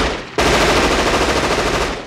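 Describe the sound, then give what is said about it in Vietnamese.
A machine gun fires a burst into the sky from a living room, starting abruptly and continuing as a rapid, loud, unbroken rattle to the end. “Từ phòng khách, một tràng đạn khác lại được bắn lên trời.”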